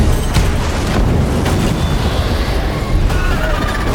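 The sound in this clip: Cannon fire during a fight around barrels: a loud, continuous booming rumble with a few sharper bursts, sustained throughout without a pause.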